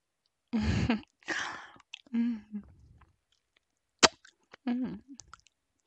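Someone chews on something put in the mouth, making wet mouth sounds in several irregular bursts with a sharp click midway and some low voiced mumbling between them.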